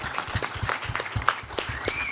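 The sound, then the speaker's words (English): Audience applause after a live talk: a dense, even patter of many hands clapping at moderate volume throughout, with no speech over it. “Yeah, we have applause too.”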